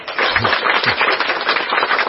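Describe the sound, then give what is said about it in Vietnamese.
Applause from a crowd of hands clapping, a dense, crackling wash that stays loud and even through the whole stretch, with no talk over it. “cho một tràng pháo tay.”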